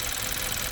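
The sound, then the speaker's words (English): A Kia Optima car engine running with incomplete combustion in one cylinder: a brief, steady, rough engine drone at a constant level, with no separate pops clearly standing out. “It's getting incomplete combustion in one of the cylinders, and that has a characteristic pop sound.”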